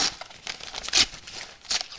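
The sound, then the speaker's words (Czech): Paper crinkles and tears as a wrapped package is unwrapped, in a few sharp rustling bursts with the loudest near the middle and another toward the end. No one speaks. “Vy si to rozbalte, ale nebojte si, já vám to rozbalím, takže se podívejte. Tak já vám to rozbalím.”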